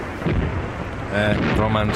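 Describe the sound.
Bombs exploding as deep, rumbling blasts, with heavy low booming and continuous loud rumble rolling through the short stretch.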